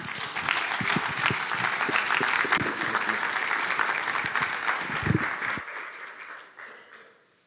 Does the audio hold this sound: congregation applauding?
yes